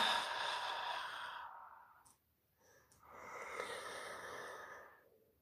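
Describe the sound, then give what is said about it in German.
A deep, loud breath in and out during a guided breathing exercise for childbirth: a long airy inhale, a brief quiet pause, then a long breathy exhale that fades away. “Gerne darfst du nochmal einen tiefen, lauteren Einatmer einatmen und wieder ausströmen lassen.”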